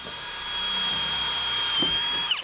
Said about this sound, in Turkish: Vida kolayca girsin diye kılavuz delik açıyoruz. Çünkü bu metal sert.